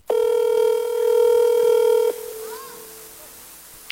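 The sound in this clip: A steady electronic telephone tone sounds as a call is placed, holding one even pitch for about two seconds before cutting off abruptly and leaving only faint background noise.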